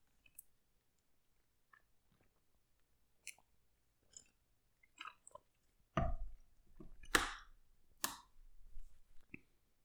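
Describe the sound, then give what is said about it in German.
Someone taking a sip of a drink: faint mouth clicks at first, then a few louder wet slurping and swallowing noises, with no speech. “Ich trinke jetzt mal einen Schluck”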